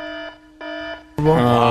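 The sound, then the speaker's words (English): Electronic alarm sound effect: two steady buzzing tones, each about a third of a second long with a short gap between them, then a louder, brighter blaring tone that holds to the end. “There is the adultery alarm again.”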